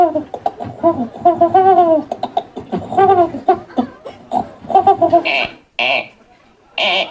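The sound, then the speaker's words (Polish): A person's voice imitates a feral city pigeon with a string of throaty, warbling coos and guttural voiced bursts, ending with a few sharp, breathy hisses. “Będzie gołąb miejski.”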